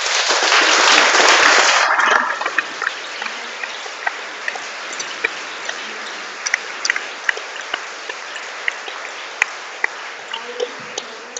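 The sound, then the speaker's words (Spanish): A group at a workshop session claps loudly together for about two seconds. The applause then breaks off into scattered single claps and light taps over a steady hiss. “Ahora, por favor, aplaudan. Fuerte.”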